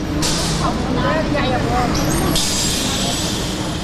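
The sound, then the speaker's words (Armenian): A city bus arriving, with sharp hissing bursts of air brakes over a low engine and traffic rumble, while people talk nearby. “Մեր ավտոբուսն էլ եկավ։”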